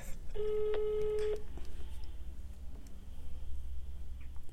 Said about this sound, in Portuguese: Eu mandei uma mensagem pra ele e falei, posso te ligar no Viva Voz?